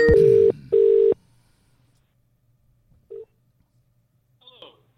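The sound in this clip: Telephone keypad tones while redialing a call: two loud, steady beeps in quick succession, then a few seconds of near silence broken by a third, shorter and fainter tone and a faint trailing sound.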